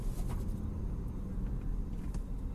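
A car makes a grinding noise as it is driven at night, heard as a steady, loud low rumble that fills the whole clip without pause and with no voices.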